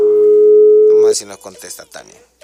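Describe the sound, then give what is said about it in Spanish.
A steady, even telephone dial tone holds for about a second while someone is being called, then cuts off as people start talking. “Vamos a marcarle a Tania, vamos a ver si nos contesta.”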